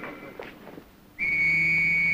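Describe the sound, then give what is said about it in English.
A police whistle blown by a constable on a busy London street: one shrill, sustained high tone starts abruptly partway through and holds loud and steady to the end, after a stretch of faint background sound. “A constable in a black domed helmet blows a whistle by the lifeless body of the girl.”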